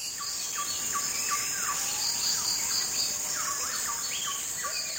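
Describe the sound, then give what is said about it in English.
A Borneo jungle soundscape of birds and insects: a dense, steady high insect drone runs throughout, layered with repeated short whistled bird phrases that rise and fall at moderate loudness. “To demonstrate this, Krauss played a recording he made in the jungles of Borneo.”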